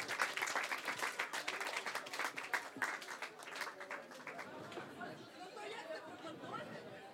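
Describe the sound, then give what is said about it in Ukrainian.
Applause and chatter break out together, with dense, loud clapping through the first three seconds that then thins and fades under continuing crowd murmur. “Зустрічайте оплесками.”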